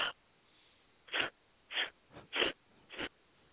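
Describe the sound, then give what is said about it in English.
Breathing exercise with a sharp, deep inhale and an exhale in quick puffs: a brief breath at the start, then a spaced run of short, breathy bursts, one noticeably softer. No talking. “Take a second, sharp, deep breath and exhale with four quick puffs of breath.”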